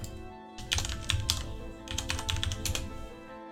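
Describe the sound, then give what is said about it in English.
Typing on a computer keyboard: two runs of rapid, light key clicks separated by a brief lull, with a faint steady hum underneath and no talk. “Langland, and I'll type his name out here in a second”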